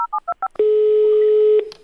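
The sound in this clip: Telephone keypad tones as a number is dialed: a few quick, bright beeps in a rapid sequence, followed by one loud, steady tone held for about a second before it cuts off.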